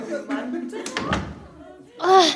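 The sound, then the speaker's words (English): A door opens with a brief low thud in the middle while excited children wait for Christmas presents, voices around it, followed by a louder, higher vocal burst at the end. “The door's opening!”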